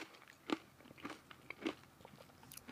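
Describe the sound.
Crunchy bites of yogurt topped with dried fruit, with two louder crunches among smaller chewing crackles, fairly faint and with no voices.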